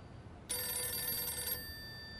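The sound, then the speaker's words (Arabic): A telephone rings with one loud, sustained electronic bell burst lasting about a second, rising sharply out of a quiet background and then cutting off. “بنتي يلا ردي على التليفون. ردي شوفي مين.”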